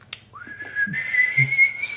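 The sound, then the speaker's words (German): A person whistles a tune: one clear sustained note that slides up at the start and then holds steady, with a few soft low thumps underneath. “Naja, das kann man gut pfeifen.”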